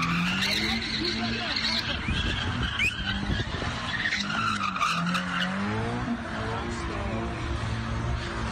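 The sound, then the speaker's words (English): A car spinning donuts on a blocked highway while onlookers film: long, continuous tire squeal and skidding with a droning engine underneath, the screech wavering in pitch as the car circles. Voices can be heard in the mix. “In the video, a group of motorists block the lanes of a highway as a driver spins in circles, doing donuts in front of several onlookers who are filming the stunt. This is how it sounded like.”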